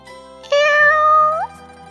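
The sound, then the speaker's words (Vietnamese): A black cat gives one short meow on its own, with a steady tone that turns upward at the very end. “Lúc ấy, chợt mèo đen kêu một tiếng, thu chân quay đầu lại.”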